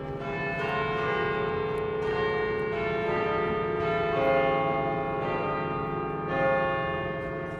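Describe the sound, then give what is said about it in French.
A great bourdon church bell rings with a deep, rich, sustained hum, renewed by repeated strikes and swelling slightly in loudness at a few points. “Donc, le bourdon s'élance, sonne pour la première fois, enfin pour moi, et après ça, ça y est, il est lancé.”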